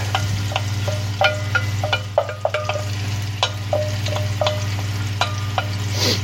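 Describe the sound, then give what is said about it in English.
Garlic, onion and chili sizzle in melted ghee, a steady frying hiss punctuated by many sharp clicks and spatters as they are stirred, over a low constant hum. “There's one little ghee berg left. There we are. Now let's dump in the garlic and onion and chili.”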